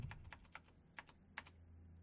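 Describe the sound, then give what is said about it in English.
Faint, sparse keystrokes come from someone typing one-handed on a disliked computer keyboard, scattered irregularly with short pauses between them over a quiet background. “That's what happens when you one-hand type. Did I mention I hate this keyboard?”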